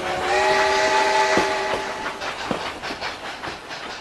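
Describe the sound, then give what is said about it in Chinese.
A train pulls into a railway station, opening with a sustained whistle tone. A few rhythmic rail clacks follow as the sound gradually fades. “列车运行前方到站盘锦站。”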